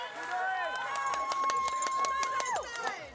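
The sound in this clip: Rapid running footsteps of children on the final 500-metre stretch of a kids' triathlon, a quick steady patter of many strides under ongoing talk and a sustained tone.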